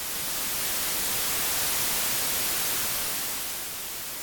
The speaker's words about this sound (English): And through static and garbled message overlaid from their voice, they said,